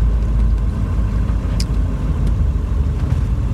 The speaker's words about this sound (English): Well, that was some crazy driving.